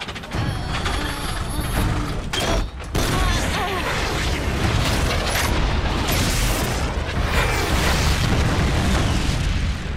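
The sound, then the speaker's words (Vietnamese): A small rocket fired and exploding during a fight, heard as a loud, dense roar of rumbling blast and crackle that runs almost without a break, with one short dip near the start. “Hỏa tiện nhỏ, bắn.”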